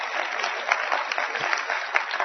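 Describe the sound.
Audience applause fills the whole clip: dense, steady clapping from many hands at an even loudness, with no voices rising above it.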